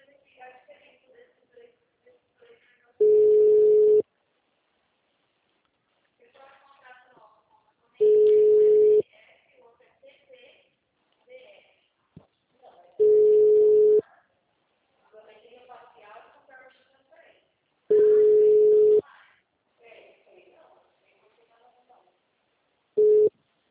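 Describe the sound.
Telephone line tones sound while a call is transferred: a steady mid-pitched beep about a second long repeats every five seconds or so, four full tones and a fifth cut off at the end, with faint muffled voice sounds in the gaps.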